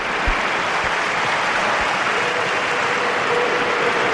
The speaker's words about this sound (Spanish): Hay más aplausos que cánticos, pero ahí está la ovación del Madrid, la ovación del en fútbol español. Están aplaudiendo, Vinicius saluda.